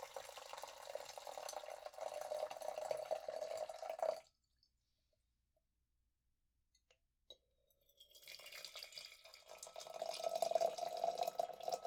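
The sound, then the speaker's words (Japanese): Coffee drips during brewing as a faint, steady trickle that fades to near silence midway, then returns. “それではコーヒーを抽出。コーヒーを入れますので今しばらくお待ちください。”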